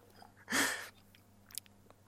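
One faint, short slurping sip of a bad-tasting drink, followed by a few tiny wet clicks.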